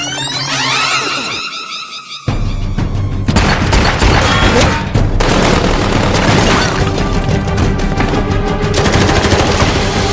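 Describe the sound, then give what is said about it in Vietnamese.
Loud, sustained gunfire as a man fires wildly at corpses. Rapid shots and bursts run almost without pause, with booming impacts throughout. “Lục Tử Minh cứ bắn bừa vào các xác chết kia, tuy bị bắn trúng nhưng bọn chúng cứ trơ ra”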